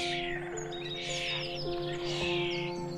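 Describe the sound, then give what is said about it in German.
Hungry baby birds chirp from a hollow high in a tree in a spring forest, giving quick high tweets and trills over a steady, sustained tonal background at moderate volume. “Nachdem ihr ein paar Schritte durch den Wald gelaufen seid, nimmst du ein herzzerreißendes Zwitschern wahr.”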